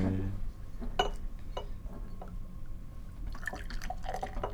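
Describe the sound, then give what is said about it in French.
Beer poured into a glass in the dark: trickling and dripping liquid with a few light glassy clinks over a low background hum. “Alors, je vais me verser une bière dans le noir.”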